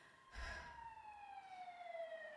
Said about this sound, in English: The siren wails, diminishes, and we wait.